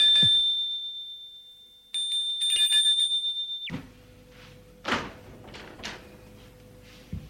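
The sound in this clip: A doorbell rings on an upper floor of an upscale apartment building, a bright, sustained electric ringing that lasts a few seconds and then cuts off, followed by a few soft thuds and rustles.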